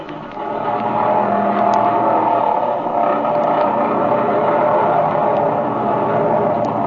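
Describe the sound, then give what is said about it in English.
A loud, steady droning roar from an airplane engine revving for takeoff on a runway, in a plane with front and rear cockpits. The roar swells in the first second, then holds a constant, heavy pitch with no talk over it. “All right, let's take off. Get in that front cockpit and I'll ride the rear.”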